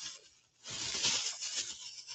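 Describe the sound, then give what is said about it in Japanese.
Paper rustles in a brief crinkly burst, quiet at first and then a louder stretch of scratchy, papery rubbing and crumpling. “紙の音なんやろ。”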